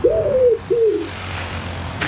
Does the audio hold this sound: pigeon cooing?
yes